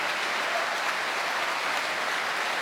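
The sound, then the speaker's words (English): Opera audience at Covent Garden applauding and cheering as the conductor brings the orchestra to its feet, a dense, steady, continuous roar of clapping throughout. “And Antonio Pappano, tonight's conductor, music director here at Covent Garden, brings the whole orchestra to its feet to a great cheer from the Covent Garden audience.”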